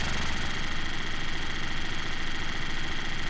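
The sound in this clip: Steady engine rumble of a truck loaded with new tyres, a continuous low, even drone with a slight vibrating texture.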